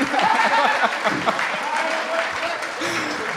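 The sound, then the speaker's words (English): Applause from a crowd at a jazz concert as the band members are introduced, thick continuous clapping that is strongest early and eases slightly, with a voice speaking over it. “Keep that round of applause going for Mr. Joshua Ramos”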